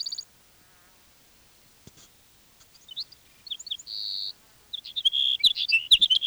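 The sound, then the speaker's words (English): A sage sparrow's high, thin song of short twittering notes and brief trills, with one sustained buzzy note, then a denser run of chirps. It is faint against near silence. “Sage Sparrow number 3.”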